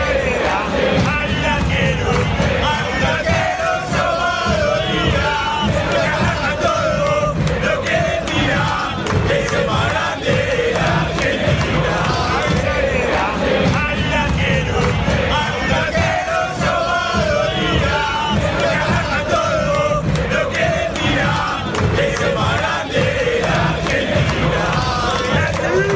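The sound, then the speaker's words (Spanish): Independiente football supporters sing a fan chant, a loud, continuous mass of voices in unison that holds throughout without pause. “empezaban a hacer este canto del hincha Independiente. Vamos a escucharlo.”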